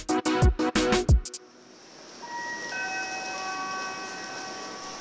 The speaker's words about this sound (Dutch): Probeer je eens voor te stellen dat je net aankomt op Amsterdam Centraal. Je stapt het station uit en het eerste wat je opvalt zijn de verschillende mensen die rondlopen. De stemmen die door elkaar heen praten en de bellen van fietsen en trams.